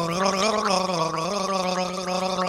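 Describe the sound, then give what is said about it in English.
Loud, continuous gargling by a man, with a voiced, pitched warble that wavers like a tune being gargled, heard alone with no talk. “Gargalissimo is the man who set the world on fire for over 20 years with his raw emotion and gargling.”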